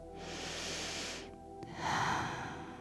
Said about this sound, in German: nimm mal einmal einen tiefen Atemzug durch die Nase ein und den Mund aus.